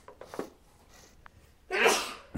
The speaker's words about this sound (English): Bless you.